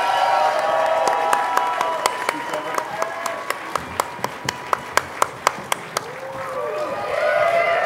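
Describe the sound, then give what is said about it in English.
A live-show audience in Denver applauds two guests onto the stage. Broad clapping settles into many sharp, evenly spaced claps in unison at a brisk steady beat, then swells back into fuller, continuous applause at the end. “Please put your hands together and welcome them to stage.”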